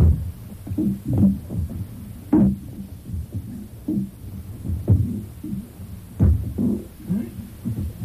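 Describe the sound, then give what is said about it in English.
Someone runs in on a taped recording, heard as muffled, irregular footfall thuds at low level. Many dull thumps land unevenly against a faint hum. “it's a little bit low level, but you can actually hear him walking in there. Listen, running in, I should say. Now he's right next to the machine.”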